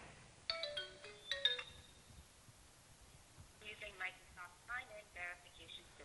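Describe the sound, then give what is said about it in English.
A phone ringing with an incoming verification call after a login: a faint electronic ringtone melody in two bursts, the second longer, separated by a short pause. “In this case, what it's trying to do is it's trying to give me a call. So I get the call once I log in.”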